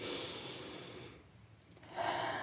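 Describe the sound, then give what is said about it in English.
A deep breath drawn in during a guided exercise with eyes closed: a quiet, airy hiss of inhaled air that fades into a pause, followed by another rush of breath near the end. “close your eyes, take a deep breath in.”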